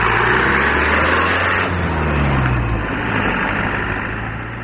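Motorcycle engine roaring as an old motorcycle is ridden very fast along the main road between Nad Ali and Marjah. A steady, loud drone with rushing noise and a slowly lowering engine tone eases off slightly at the end.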